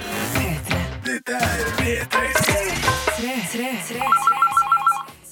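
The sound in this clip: A telephone ringtone for a call into a radio show, heard as a rapid, repeating high trill near the end over busy music.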